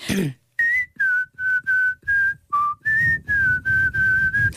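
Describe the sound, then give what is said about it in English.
A person whistles a song tune in clear, bright notes, many short sustained tones separated by brief breaths, mostly level in pitch with one lower dip partway through. The whistling stands alone, with no talk. “Do you want me to whistle? Well, I do more whistles.”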